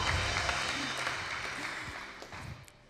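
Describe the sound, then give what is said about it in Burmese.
Church audience clapping hands to honor God, a soft, steady spread of many hands that gradually thins and fades toward the end. “ထိုဖခင်ကိုလက်ခုပ်တီးပြီးဂုဏ်ပြုမယ်ဟာလေလုယာ”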